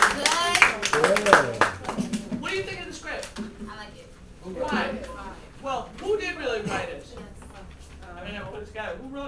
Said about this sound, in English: clap for yourselves again, please.